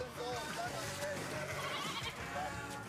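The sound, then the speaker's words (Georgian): Sheep bleat while being bathed in a special anti-parasite solution. A few faint, wavering bleats rise over a busy, low-level mix of voices and movement. “ცხვარ სპეციალურ ხსნარში აბანავენ პარაზიტების მოსაცილებლად. წინააღმდეგ შემთხვევაში ცხრები შეიძლება დაიხოცონ.”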